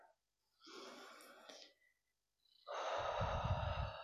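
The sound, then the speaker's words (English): A deep breath is drawn in as two soft, airy breaths with a pause between them. The second breath is longer, louder and fuller, with a breathy, sigh-like texture. “I invite you to take in a breath.”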